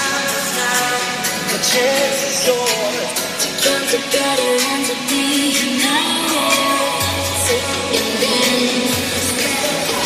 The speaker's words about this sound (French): Ce que vous entendez, c'est l'hymne officiel de la compétition.